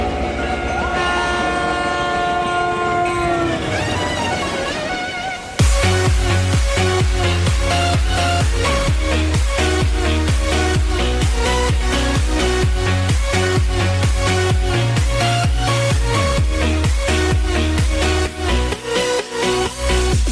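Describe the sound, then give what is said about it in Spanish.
A train setting off, used as a radio sound effect: a sustained horn-like tone for the first few seconds, then a loud, steady rhythmic rumble and clatter of wheels that continues to the end. “Tren de las conexiones que se pone en marcha.”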